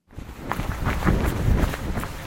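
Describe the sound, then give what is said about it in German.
Footsteps of a young, well-trained man jogging high in the mountains at about 2,000 metres near the Gotthard: many quick, soft thuds in a steady rhythm, starting after a brief silence. “Ein junger, gut trainierter Mann mit engen schwarzen Laufhosen und einer leuchtblauen Windjacke ist am Joggen.”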